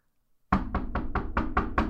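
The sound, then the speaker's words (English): After a moment of silence, someone knocks on a door with seven quick, evenly spaced raps, firm and fairly loud. “So I'm going to knock”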